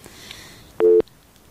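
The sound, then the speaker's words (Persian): Busy tone after a dropped phone call: a single short, steady two-note beep stands out alone against a faint background hiss. “بله فکر کنم که تماس ما قطع شد.”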